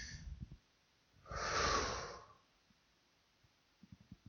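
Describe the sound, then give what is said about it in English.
An audience breathes out together in one broad, breathy whoosh lasting about a second that swells and fades, with faint scattered rustles and taps before and after. “On a count of three, a deep breath in and exhale.”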